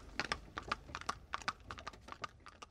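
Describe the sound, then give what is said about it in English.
Hooves of a hackney carriage horse clip-clop as a radio drama effect, with many faint, sharp hits in an uneven trotting rhythm and no voices. “She runs off, catching a conveniently timed hackney carriage, and rides home, leaving a mystified Shepard behind her.”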